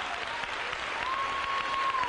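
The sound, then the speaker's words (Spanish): A church audience applauds together in dense, steady clapping that holds an even loudness throughout, with a thin sustained tone appearing in the second half. “Dale un aplauso al rey.”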